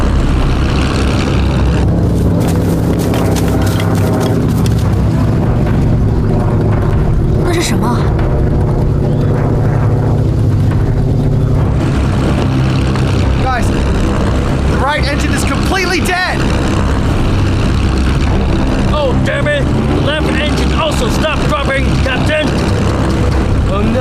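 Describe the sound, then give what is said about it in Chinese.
A failing right engine on a B-29 bomber during its return flight: a loud, steady propeller-engine drone fills the whole clip while people talk over it. “The right engine start dropping. Let's do something. The engine gonna fall.”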